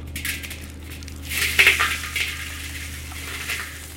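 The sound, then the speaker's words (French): Sand dropped by a robotic arm onto a heat shield at JPL makes a soft, steady hissing trickle, with a brighter gritty burst near the middle and a few fainter patters afterward. “ce qu'on a demandé à nos collègues qui manipulent le bras au JPL, c'est de venir faire chuter le sable sur le bouclier, à peu près à cette hauteur-là.”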